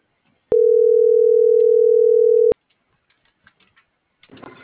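A phone call goes unanswered as a single steady, mid-pitched ringback tone sounds for about two seconds, followed by a few faint clicks and a short burst of noise.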